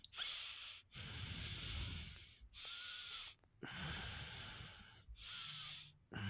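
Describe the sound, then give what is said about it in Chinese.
Heavy, exaggerated panting during sex: a series of long, breathy hissing breaths separated by short pauses, fairly faint and without talk. “哦，加重了喘息的声音。”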